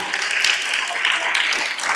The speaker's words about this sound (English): Clap for him.